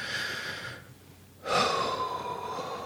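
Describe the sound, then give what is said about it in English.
A deep breath: two long, airy breaths separated by a short silent pause, the second louder and fuller than the first, with no talking. “To begin with, tap on the side of your hand, take a nice big deep breath. Take another nice big deep breath.”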